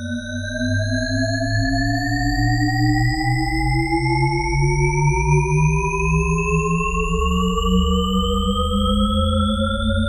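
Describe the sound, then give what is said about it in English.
A Shepard tone illusion: stacked octave tones glide steadily upward together over a low humming bed. The pitch seems to climb endlessly without ever resolving, loud and unbroken throughout. “This is the sonic illusion known as the Shepard tone, named after cognitive scientist Roger Shepard. It gives listeners the impression that sound is constantly going up or going down in pitch, but never resolving.”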